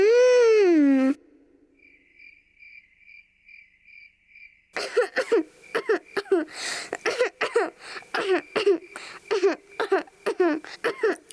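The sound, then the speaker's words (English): Repeated coughing from someone suddenly ill with a high fever: many short, harsh bursts in quick succession, preceded by a falling tone and faint, evenly spaced chirping beeps. “Why have you suddenly got so much cough?”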